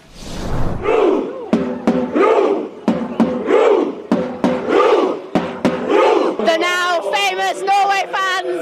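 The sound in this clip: Norway football fans chant together in Miami Beach: a loud massed crowd shouts the same short phrase over and over in a steady rhythm, then breaks into higher, sung calls at the end.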